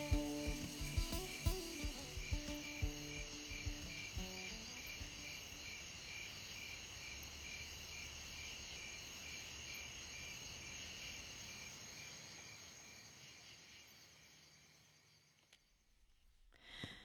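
Crickets chirping at nightfall within a music track, a steady high, shimmering chorus that runs throughout, with a few brief plucked musical notes at the start, fading out near the end.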